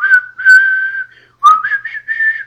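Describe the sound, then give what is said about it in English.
A melodic human whistle from a film soundtrack, clear and loud with nothing else under it, played in two sustained phrases separated by a short pause. The second phrase begins lower and steps upward. “And that whistle, of course.”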